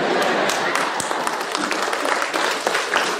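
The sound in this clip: Audience clapping: an even, continuous roar of many hands applauding at a steady level throughout.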